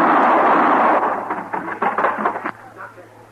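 Gunshots ring out in a loud rumbling roar that breaks into a quick run of sharp reports before cutting off, leaving quiet.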